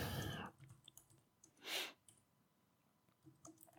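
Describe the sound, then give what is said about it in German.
Faint, irregular clicks and taps of someone typing on a device, with a brief louder rustling burst partway through. “Was tippst du da schon wieder?”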